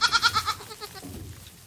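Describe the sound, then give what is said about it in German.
Newborn goat kids bleat on their first day of life while being bottle-fed colostrum: a few high, quavering, pulsing bleats that fade and trail off into faint movement. “An ihrem ersten Lebenstag füttere ich den Zicklein die Biestmilch der eigenen Mutter mit der Flasche.”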